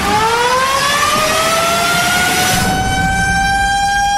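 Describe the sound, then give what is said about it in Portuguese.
A time machine starting up as a DJ sound effect: a loud, steady mechanical whine that slowly rises in pitch over a thick, roaring hum. “Vamos acionar a nova máquina do tempo. Ligando a máquina do tempo.”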